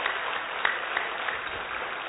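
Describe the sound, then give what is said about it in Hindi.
An audience gives hearty applause in honour of a doctor who has just spoken. The clapping is even and sustained, with a few sharper individual claps standing out. “एक बार doctor साहब का जोरदार तालियां बजा करके उनका अभिनंदन,”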